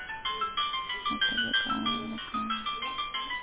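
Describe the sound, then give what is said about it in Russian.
Mobile phone ringtone, an electronic melody of rapid, evenly pulsed notes repeating steadily at moderate loudness, with no talk. “Сейчас, секунду, подождите, я возьму сотовый, отвечу, одну секунду.”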